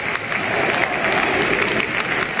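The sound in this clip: Nearly 27,000 spectators at El Molinón applaud their team after a tied Sporting versus Las Palmas football match, a dense, unbroken wash of clapping and crowd noise.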